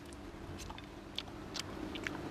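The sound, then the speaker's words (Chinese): Soft chewing and biting sounds while stir-fried gourd with pork is tasted, faint and moist, with a few slightly crisper bites standing out. “这尝一下，我们今天做的这个葫芦菜，先尝一下这个葫芦炒肉”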